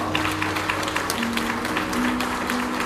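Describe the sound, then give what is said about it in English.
Church audience applauding in praise of God, a steady patter of many hands clapping at a moderate level for about three seconds without a break. “Come on, church, give God a round of”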